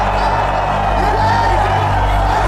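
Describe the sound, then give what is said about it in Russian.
American players and fans cheer after a basketball shot that scores just after the final siren. A continuous crowd roar with scattered whoops holds at a steady, loud level throughout. “Бросок, гол. Но уже после финальной сирены. Американские игроки и болельщики радуются.”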